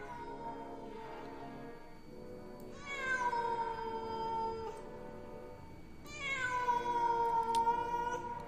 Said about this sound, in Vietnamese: Tiếng con mèo vẫn kêu lên, nghe đến não ruột ở bên ngoài kia.